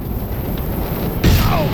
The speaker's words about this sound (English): Tank blows early.